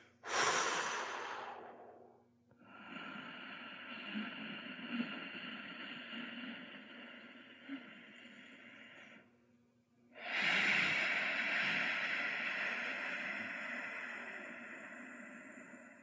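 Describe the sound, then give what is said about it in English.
A slow breathwork breath opens with a short airy exhale, then a long steady inhale of several seconds and an equally long, loud exhale, with no talking. “every time you start a breathwork exercise, it should start with an exhale and then you start the exercise. So let me just show you what one of these breaths look like.”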